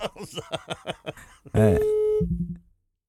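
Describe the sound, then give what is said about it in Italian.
A telephone busy tone after the caller hangs up on a radio call-in line. A stretch of talk gives way to a loud, steady electronic tone, then a few shorter, lower beeps. “Niente. Niente, ha messo giù.”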